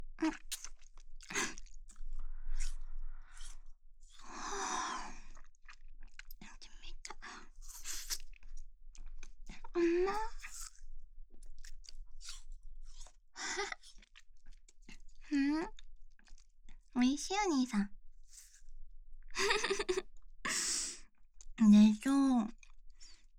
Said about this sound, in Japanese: ほら、兄さんも食べて食べて、溶けちゃうよ。